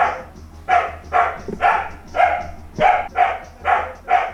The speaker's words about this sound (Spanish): estamos aquí en la calle preguntando a los perritos. ¿Qué le parece lo que está pasando en el ecosistema?